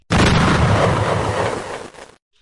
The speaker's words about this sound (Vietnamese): trên đỉnh núi đã vang lên tiếng nổ rung trời.